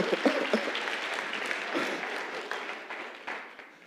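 Audience applause after a runner crosses a finish line: dense, steady clapping fills all four seconds, with a few sharper claps early on, then thins slightly toward the end.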